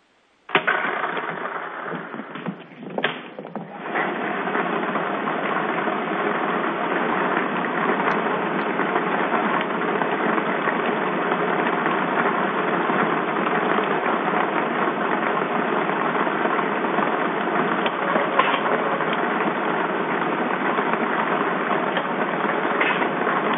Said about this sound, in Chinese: 好的，彩民朋友，请拿好您们手中的彩票，马上为您启动摇奖机。